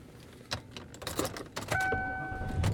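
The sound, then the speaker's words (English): Inside a car as it is driven, a low engine hum carries a few clicks and jangling keys, followed by a sustained electronic chime tone. “And I am driving home.”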